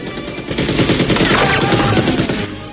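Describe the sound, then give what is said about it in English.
Rapid machine gun fire comes from a gun torn off the side of a helicopter and fired at guards in an action film scene. Loud, fast crackling bursts repeat steadily throughout with no talk. “He takes down guards with the machine gun.”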